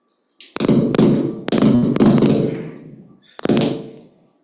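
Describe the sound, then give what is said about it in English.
A door being knocked or banged with several heavy wooden thuds, each leaving a short ringing decay, the last one arriving after a brief pause. “That was the other door.”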